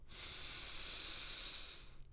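A deep inhale through the nose during a guided breathing exercise: one steady, airy breath lasting about two seconds, soft and even from start to finish, with no voices.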